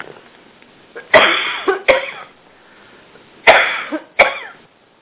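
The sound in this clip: Harsh coughing from someone who has choked comes in two separate fits of a few sharp, loud coughs each, with a quiet stretch between them and no talk.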